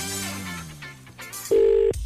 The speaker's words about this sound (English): It's ringing.